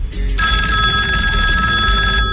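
A telephone bell rings with an incoming call to a radio show: a bright, steady ring that starts after a brief low rumble and holds unbroken to the end.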